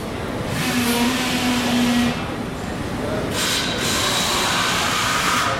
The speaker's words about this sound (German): Wir stehen gerade in der Produktion für die Trockenläuferpumpen.